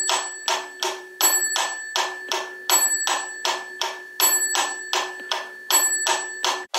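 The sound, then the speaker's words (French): An antique metronome from 1832 ticks in a steady, even rhythm, and a small built-in bell dings on the first beat of each four-beat bar. The bell rings four times over the quick, dry clicks. “cette clochette marque le début de chaque mesure, en fait. Donc là, on était dans une mesure à 4 temps, on entendait 4 battements du métronome, et puis une sonnette tous les 4 temps”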